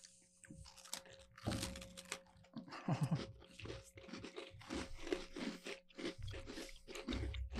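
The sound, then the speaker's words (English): Biting into and chewing a thin, crispy cookie from New York: many sharp crunches and crackling chews in an irregular rhythm, fairly loud, with no talking. “All right, let's try this cookie.”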